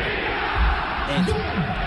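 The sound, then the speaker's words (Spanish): A crowd shouting together on cue toward Cagliari football ultras: a dense, steady roar of many voices that stays loud and unbroken through the whole two seconds. “A ver, la gente, ¿me grita, por favor?”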